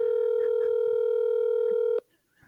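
Ringback tone of an outgoing phone call. A steady, mid-pitched electronic tone holds for about two seconds and then cuts off abruptly into near silence. Faint soft sounds lie beneath the tone.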